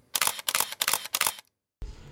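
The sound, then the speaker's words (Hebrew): Camera shutter clicks as a selfie is taken with a portrait: a rapid burst of crisp, mechanical shutter snaps in quick succession, then a brief silence and a soft, low thump. “היי חבר'ה, יש פה תמונה שלו בבדים, בואו נעשה איתו סלפי.”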